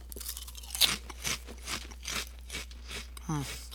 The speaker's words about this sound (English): All right, I'm gonna taste test it real quick. This is bacon wrapped jalapeno popper.